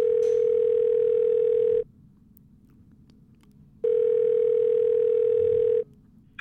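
Telephone ringing tone heard while placing a call: two long, steady, even-pitched beeps, each lasting under two seconds and separated by a quiet gap of about two seconds, with no voices.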